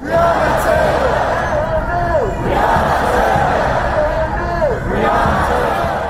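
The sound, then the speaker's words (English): Protesters at a Black Lives Matter demonstration outside the Barclays Center in Brooklyn, New York City chant loudly in unison, repeating a short chant in regular cycles over a constant crowd roar. “And here now is some sound from one of last night's protests outside the Barclays Center in Brooklyn in New York City.”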